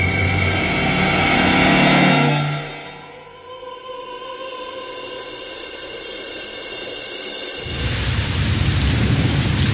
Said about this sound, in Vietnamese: Buổi chiều hôm ấy, trời mưa phùn rả rích mãi, kéo dài đến tối vẫn chưa ngưng.